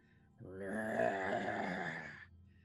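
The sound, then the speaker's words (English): A voice imitates a monster's heavy breathing during a tabletop role-playing game. It is one sustained, low, groaning moan of about two seconds, fairly soft and heard on its own. “Okay, and then he'll like, like breathe heavily. Okay. And then watch.”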